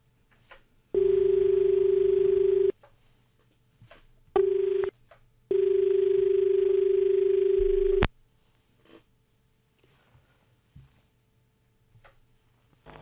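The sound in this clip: A telephone line tone for an incoming call to a farm-advice radio phone-in: three steady mid-pitched tone bursts, long, short, then long, with quiet pauses between them.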